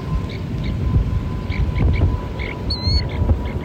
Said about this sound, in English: That's the sound of a snowy plover chick chirping from inside an egg. The chicks tap at the eggs just before hatching.